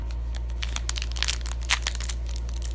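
Crinkling and tearing of a tiny green Japanese green tea Kit Kat wrapper being opened, with many soft, irregular crackles over a steady low hum.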